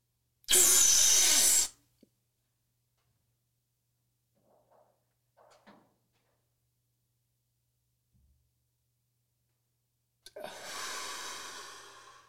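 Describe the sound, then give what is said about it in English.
Deep breathing exercise: one loud, forceful breath, then near-silence while the breath is held for several seconds with only faint small sounds, before another long, rushing breath begins. “And then when you take that next inhale, hold it for 10 to 15 seconds.”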